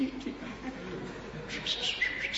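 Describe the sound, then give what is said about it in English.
Little sparrows chirp at a bird feeder. A few faint, high, thin chirps come in the second half over a soft background. “And it's these birds, little sparrows, oh, they love the bird feeder. So many, they're always just coming, tweet, tweet,”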